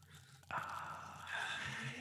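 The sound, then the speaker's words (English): A can of pomegranate lemonade is cracked open with a sudden sharp hiss, then fizzes in a steady, faint carbonated sizzle that grows slightly louder toward the end. “And so I cracked it open there. But if you can hear it fizzing,”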